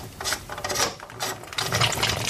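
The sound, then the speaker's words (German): Scraping, ratcheting mechanical clicks as the upper valve part of a tap is unscrewed by hand, one turn at a time. The rasping bursts come in an irregular, steady stream with no talk. “Noch eine Drehung, dann kann man es rausschrauben.”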